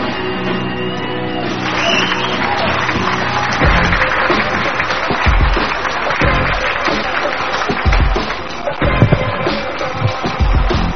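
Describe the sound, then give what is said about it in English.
Audience applause and shouting as a crowd is urged to welcome performers to the stage. The dense clapping builds and carries on loudly, with whoops and yells mixed in. “Let's all get together and welcome them to the stage with a great big hand.”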